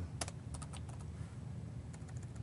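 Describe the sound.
Typing on a computer keyboard, a few quick clusters of light key clicks over a low background hum, without talk.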